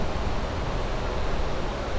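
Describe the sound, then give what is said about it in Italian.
Rushing, pouring water gives a dense, even hiss much like a fan, steady and unbroken for two seconds with no voices. “Sembra una ventola. In effetti questo è generato dallo scrosciare dell'acqua, per cui non è un rumore di una ventola”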